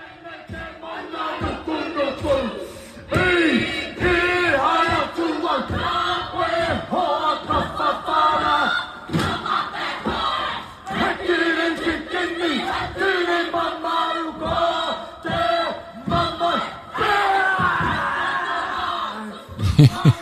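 A group of women and men performs a Maori haka: loud, rhythmic shouted chanting in unison, punctuated by sharp percussive hits, holding steady for about twenty seconds.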